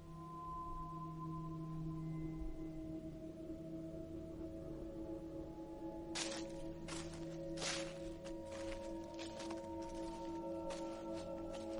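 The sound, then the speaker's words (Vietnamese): At night, a group's footsteps rustle and crunch on dry leaves. Several faint, irregular crackling steps fill the second half over a steady low hum and soft tonal drones. “Tiếng bước chân đoàn người dẫm lên lá khô thành những âm thanh sột soạt trong đêm.”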